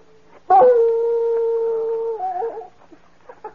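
A dog whines and howls while pulling at its leash on a night outdoors: one long, steady howl holds for over a second and a half, then breaks into a wavering whimper that trails off.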